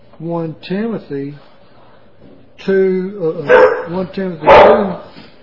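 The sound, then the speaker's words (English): A loud dog barks indoors, a few short, tonal, yelping barks early on, then a louder, harsher run of barks after a brief pause. “Excuse the dog, we've got a loud dog in here.”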